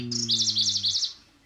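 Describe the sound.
Birdsong captured close up without a parabolic reflector: a brief, bright, high-pitched trill of rapidly repeated sweeping notes, clear and fairly loud, over a low steady hum that fades out before the song ends.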